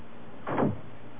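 A door closing indoors gives one soft, muffled thump, fairly faint and heard alone.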